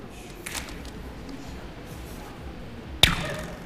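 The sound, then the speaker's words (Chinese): A rubber band snaps to imitate an arrow being shot: one sharp, bright crack near the end with a brief fading tail, set against a steady low background hiss. “哦，就是皮筋模拟出来的声音。”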